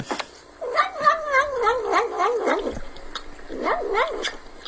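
A cat making warbling, meow-like noises while eating. There are two bursts of wavering, mid-pitched vocalising, a long one and then a shorter one, with no other sounds.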